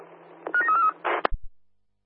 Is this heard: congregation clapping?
no